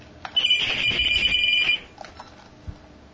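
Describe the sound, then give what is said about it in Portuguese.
An electronic telephone ring for an incoming call: one sustained, high, warbling ring lasting about a second and a half, fairly loud, followed by a few faint knocks and brief low sounds. “Opa! Atende! Calma aí, temos uma ligação aqui.”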